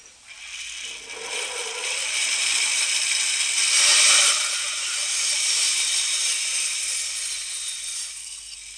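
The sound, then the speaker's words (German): Sawing through a piece of fine wood to cut it smaller for a small bed in a master carpenter's workshop: a steady, continuous rasping noise lasting throughout, with no voices. “Also jetzt suchen wir uns ein ganz feines Holz raus. Ja, ja. Ist doch. Ein bisschen zu groß. Wart, wir schneiden es kleiner.”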